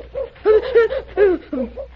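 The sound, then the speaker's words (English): An owl in a tree at night gives a run of short, wavering hoots in uneven rhythm, some louder and some softer, with brief gaps between them. “What was that? Oh, that was an owl up there in the tree.”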